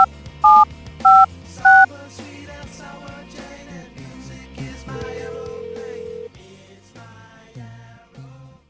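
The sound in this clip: Telephone keypad dialing tones: three loud, evenly spaced beeps open the sequence, then softer tonal sounds continue underneath.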